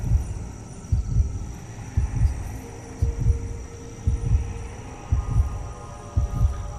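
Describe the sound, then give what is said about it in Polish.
Heartbeat with a steady rhythm of soft, low double thumps, about one beat per second, over a continuous low hum. “Bo oprócz tego bicia serca, słyszycie, są jakieś takie jęki takie”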